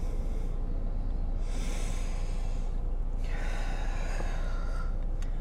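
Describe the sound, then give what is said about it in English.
Two slow, deep breaths, each a long, airy rush of air heard alone against a steady background hiss, with a short pause between them. “Taking deep breaths.”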